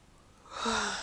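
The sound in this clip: A woman yawns early in the morning, a breathy sound that starts quiet and swells into an open, voiced exhale lasting about half a second.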